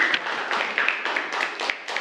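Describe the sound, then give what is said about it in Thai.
Students clap for a classmate in a classroom, moderate bursts of scattered clapping that start and stop in short spurts. “ปรบมือเพื่อนด้วยนะครับนักเรียน”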